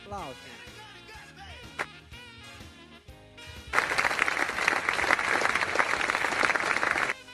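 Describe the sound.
Applause bursts out about halfway through, a loud, dense wash of clapping that holds steady to the end. Before it, a voice and tonal sounds are heard.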